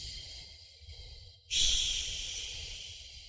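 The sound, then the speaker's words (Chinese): A slow, long exhale through an open mouth, done as a breathing exercise, follows a faint breath in: a soft airy rush that starts abruptly and fades gradually, with no talking. “然后张开口，再进行缓慢的呼气，呼的时候越慢越好，长呼”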